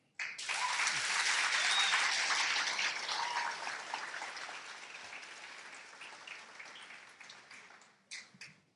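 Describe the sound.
Applause from a church audience welcoming a speaker to the front. It swells quickly into dense, sustained clapping, gradually thins over several seconds, then ends with a brief final burst.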